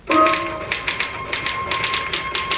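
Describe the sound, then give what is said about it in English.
Rapid typing on a typewriter-style keyboard: a quick run of crisp taps and clacks with uneven rhythm, fairly loud, with a faint steady tone and no voices. “I typed the results of the fifth and sixth races at Aqueduct.”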